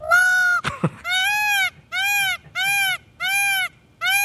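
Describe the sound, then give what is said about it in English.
Peacock calls: a run of loud, nasal, wailing honks repeated with short pauses between them, each one a strident, sustained cry, with a brief scuffing noise after the first. “Because you think of, like, say the peacock. You know, they got the feathers. They look so pretty. You ever hear one? Oh, my gosh.”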